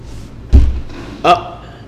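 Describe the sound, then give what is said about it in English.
Heavy boots thud on the floor of a brewery: a couple of dull, weighty thumps. The first is deep and low, the second brighter and sharper, with quiet background between them. “Scientifically speaking, your boots make it sound like someone's coming in the brewery, and it freaks me out.”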